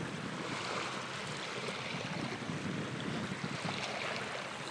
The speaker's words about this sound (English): enjoy these waves. And it is lots of fun. And we will listen to this for a few seconds